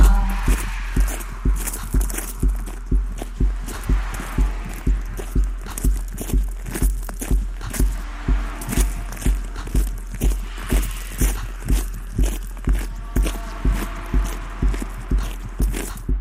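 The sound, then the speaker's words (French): Footsteps of a person walking: many regular, crisp steps at an even pace, loud and steady throughout, over a constant low drone, with no talk. “la marche, son souffle, ses pas, c'est une musique que vous restituez ici, on l'a entendu à votre manière.”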